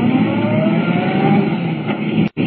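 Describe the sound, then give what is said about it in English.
A car engine roars as the car accelerates onto a smooth concrete main road at around 70 miles an hour. A loud, even, driving drone holds throughout, then cuts out briefly near the end. “Swinging out of the sanatorium driveway, Clark Kent hits the smooth concrete of the main road, traveling at 70 miles an hour.”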